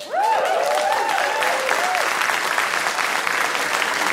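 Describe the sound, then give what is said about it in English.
An audience clapping in a dense, steady round of applause that holds at an even level throughout, with a voice briefly audible at the start. “That's the first time anybody's clapped for my asthma.”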